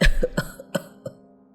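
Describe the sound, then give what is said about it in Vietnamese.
An elderly man's dry cough, muffled behind his hand: a short series of harsh, hacking bursts in quick succession, fading in strength, with no talk. “cụ già đưa tay lên bịt miệng, ho khan mấy tiếng”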